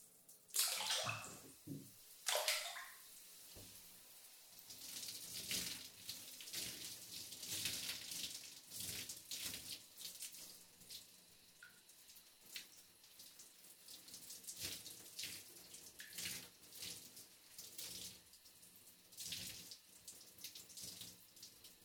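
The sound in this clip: Water running in a bath while someone washes their body: a faint, continuous rush with many irregular splashes and drips that rise and fall in strength throughout.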